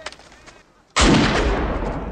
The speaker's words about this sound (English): And he's firing the pistol in his ear